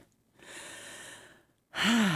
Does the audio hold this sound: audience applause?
no